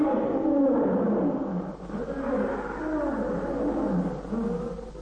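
A lion roars, a deep, continuous, growling rumble that rises and falls in waves throughout.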